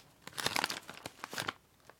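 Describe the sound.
Crinkling plastic as the wrapper of a Kagoshima sweet potato candy is torn open: two bursts of crisp rustling and tearing, then a faint click, with no voices.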